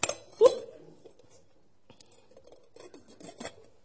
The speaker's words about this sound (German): Also ich halte einen Kochtopf in meiner Hand. Liebe Zuhörer zu Hause, hier hört ihr ihn.